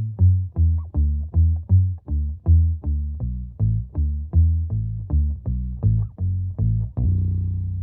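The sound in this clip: Slow bass line played on a guitar: a steady procession of deep plucked notes, roughly two per second, each decaying quickly. It ends on a longer held note that rings out alone.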